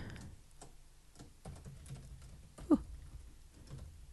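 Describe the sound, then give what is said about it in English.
Typing on a computer keyboard comes through as faint, scattered key clicks in an irregular rhythm, with one sharper tap standing out among the soft presses. “Okay, so I'm just going to type in.”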